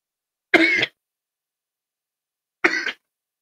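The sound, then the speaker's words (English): Two short, rough throat clears about two seconds apart, each standing alone against silence. “oh my goodness. Something was in my throat.”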